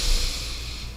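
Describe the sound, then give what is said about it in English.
A person takes a slow, deep breath in, a steady airy hiss with a low rumble lasting about a second, with no talk. “Let's take a deep breath in.”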